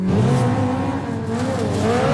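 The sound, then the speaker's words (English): Sports race cars such as Ferraris, Porsches, Lamborghinis and McLarens roar past in GT racing at Road America, a loud continuous engine howl whose pitch wavers and climbs toward the end. “Ferraris, Porsches, Lambos, McLarens.”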